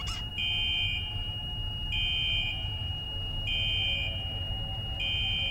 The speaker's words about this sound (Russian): Раздается сигнал пожарной безопасности.